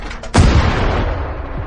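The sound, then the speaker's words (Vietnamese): A single loud gunshot fired at the wall of a wooden cabin: one sharp, explosive crack followed by a lingering low rumble that slowly decays. “Thế nhưng Tô Bạch chỉ hơi nghiêng người, rút địa ngục hỏa sót gan bên người của mình ra, nhắm về phía vách tường của nhà gỗ, không chút do dự nổ súng.”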